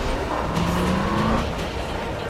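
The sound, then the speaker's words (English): Car engine running as a car drives onto streetcar tracks with a tram close behind, a loud continuous motor tone carried over steady road noise. “Danny steers the car onto the streetcar tracks and slows as the big tram looms up behind them.”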